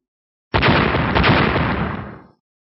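Walls collapsing under machine-gun fire: a sudden, loud, roaring blast of crashing noise that holds for nearly two seconds, then thins out and stops abruptly.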